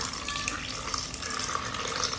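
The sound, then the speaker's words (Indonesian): Water pours in a steady, even rush for about two seconds as enough is added to ingredients while cooking, just before they are blended. “Dan secukupnya air.”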